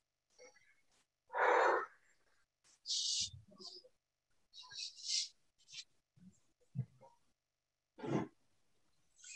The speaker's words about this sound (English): So go ahead and take one more deep breath.